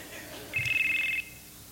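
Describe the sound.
A cell phone rings in an audience with a brief, faint electronic trill of rapid, even pulses at a high, steady pitch. It stops after under a second.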